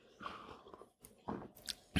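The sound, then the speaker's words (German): Sipping decaf coffee, heard as a few short, soft slurping and swallowing noises with small mouth clicks. They are quiet and heard alone, ending in a brighter, sharper burst. “Ja, ich werde jetzt mal einen Schluck von meinem äh, Decaf Coffee trinken.”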